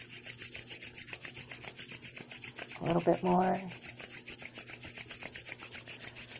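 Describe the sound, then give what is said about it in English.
Hands rubbing together make a steady, rhythmic back-and-forth swishing that runs through the whole clip, with a brief spoken phrase over it midway. “That sound in the background is me rubbing my hands together.”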